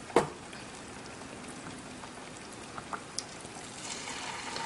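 Bananas fry in hot oil with a faint, steady sizzling hiss, a sharp click at the start and a few small pops toward the end.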